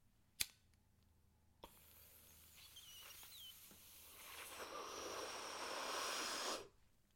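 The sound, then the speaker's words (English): Someone breathes herb smoke in and out: a sharp click, then a long, soft, airy rush of breath that swells louder toward the end before cutting off, faint overall. “Thank you for your patience hearing me just kind of, you know, go through a little inhale, exhale right here.”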